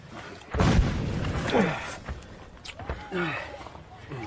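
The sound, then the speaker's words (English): A big trench mortar shell explodes near a shallow dugout: a sudden heavy boom at about half a second, followed by a rumbling tail, while people talk. “This isn't a deep dugout. That was a big trench mortar.”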